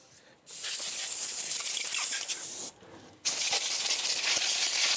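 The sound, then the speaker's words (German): Compressed air gun blasts fresh ginger to strip off its skin, giving two long, loud, steady hissing bursts separated by a short quiet gap. “dann jetzt hier die Luftdruckpistole nehmen.”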